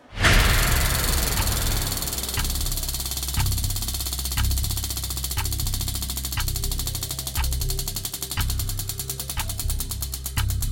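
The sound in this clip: A game-show prize wheel being spun, its pointer ticking in steady, regular clicks over a loud, continuous background wash, with faster, finer ticking toward the end.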